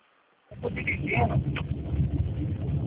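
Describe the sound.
Road and engine rumble of a car being driven, band-limited as if carried over a phone call. It starts abruptly after half a second of silence and continues steadily while a voice talks over it.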